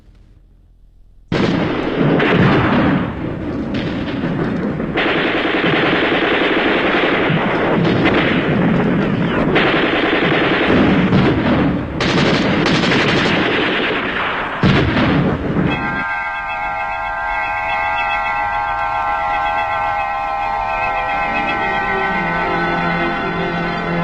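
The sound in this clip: Gunfire and artillery sound effects for a war-era scene form a dense, loud barrage that roars almost without a break for about fifteen seconds. They then give way to a sustained tonal, music-like passage.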